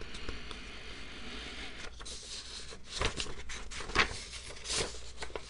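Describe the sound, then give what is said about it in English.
Papers being shuffled and rustled, giving a run of crisp, crinkly bursts of varying loudness with a few sharper rustles, and no voices. “Am I shuffling the papers enough? To be fair, I should let you guys know that I have employed a paper shuffling team to make these noises,”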